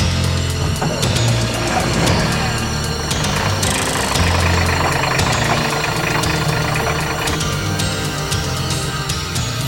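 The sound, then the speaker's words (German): A car engine drones steadily as the car drives through a partly burning forest, with a dense, continuous rumble and knocking that holds an even level throughout and no talk. “Kenneth fuhr durch den teilweise brennenden Wald. Mühsam kämpfte er sich an die Waldhütte heran, die am Rande einer Lichtung lag.”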